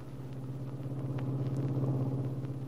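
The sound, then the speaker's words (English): A car being driven gives off a steady, fairly quiet engine drone: a low rumbling hum that swells slightly and then holds evenly throughout, with no voices. “Later, as Ben drives toward the big house on 11th Street.”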